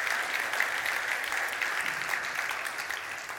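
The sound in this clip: A church audience applauds to welcome guests with dense, continuous clapping that stays at an even, fairly loud level throughout, with no voices.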